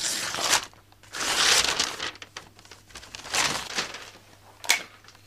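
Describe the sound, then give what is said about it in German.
Birthday presents being unwrapped: wrapping paper crinkles and crumples in a few irregular bursts, some brief and some longer, separated by quieter gaps. No talk is heard. “Darf ich jetzt die Geschenke auspacken? Aber ja.”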